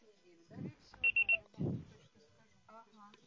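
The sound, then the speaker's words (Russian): Three short, high-pitched beeps in quick, even succession from a Russian-language voicemail system mark the start of recording, with faint, muffled voice sounds before and after them. “Ваш звонок был переадресован на голосовой почтовый ящик. Можете оставить сообщение после сигнала.”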